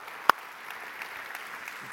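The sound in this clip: Faint, steady audience applause welcoming a missionary couple from Peru, with one sharper, louder clap standing out near the start.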